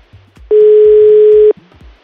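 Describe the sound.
Telephone ringback tone on an unanswered call: a single steady, mid-pitched electronic tone lasting about one second, loud and even, with people talking before and after it.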